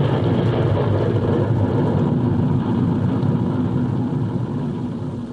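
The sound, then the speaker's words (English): A spaceship blasts off in a space adventure video game. A loud, steady engine roar rumbles throughout and tapers off slightly at the end. “Pretty cool blast off. You are on your way again, space traveler.”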